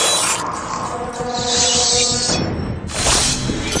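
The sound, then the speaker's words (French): A sound effect of a blade passing through skin, made by tearing a chicken or turkey carcass: two hissing, tearing bursts over background tones. “Donc une lame qui passe dans la peau.”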